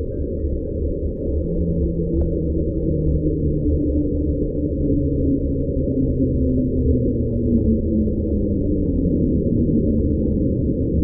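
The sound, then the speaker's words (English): A deep, powerful underwater rumble recorded at original speed from ice breaking, like an ice quake, holding steady and loud for the whole stretch, with faint slow tonal sweeps drifting downward inside the low roar. “A rumble. A really loud, powerful rumble. It sounds a lot like those ice quakes.”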